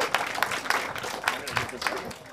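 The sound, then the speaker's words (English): Audience applause welcoming a speaker to the stage: a steady patter of claps at moderate level, with a voice speaking over it. “Let's give a round, warm welcome to John Nichols.”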